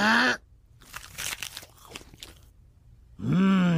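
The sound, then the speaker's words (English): A crunchy bite into a barley veggie burger, with loud crackling, tearing crunches and chewing lasting a few seconds, framed by a voiced hum before and after. “Introducing the Mother Nature Burger, made from 100% wheat-fed barley. And now to take a yummy bite.”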